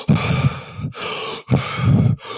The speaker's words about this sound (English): we were breathing rapidly because we were trying to consciously account for the decreased oxygen by increasing our respiration.